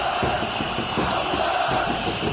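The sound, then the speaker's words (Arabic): A stadium crowd of 60,000 chants a player's name in unison at a football match just after a goal, a loud massed roar pulsing in a steady repeated rhythm. “الجمهور ينادي بصوت واحد، 60,000 حنجرة. عواد عواد عواد”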